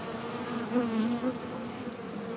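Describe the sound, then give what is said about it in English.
Honeybees buzzing around a hive, a steady droning hum at moderate level that swells slightly midway and carries on alone without any talk. “Like two bees will be flying together, holding another bee, and they'll like carry it out and take it outside the hive to, you know, keep the hive clean.”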